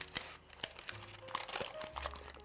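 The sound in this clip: Parchment paper crinkles and crunches while a crust is pressed into a springform pan: many small, irregular rustles and crackles, quiet throughout.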